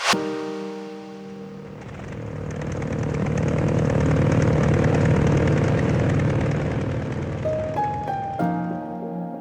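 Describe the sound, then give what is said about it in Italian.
Propeller airplane engine drone: a dense harmonic buzz that swells from about two seconds to a loud, steady peak mid-clip, then eases slightly. A few short tonal squeaks come near the end. “Questo è il suono dell'elica dell'aereo di Amelia Earhart, aviatrice.”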